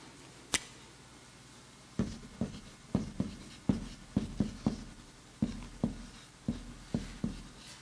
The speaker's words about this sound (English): one of the things we actually didn't write down up here, and I will write it now.